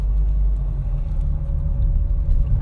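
A car driven along a road on a detour around fallen power lines gives a steady, loud, low engine and road rumble that stays constant throughout, with no talk.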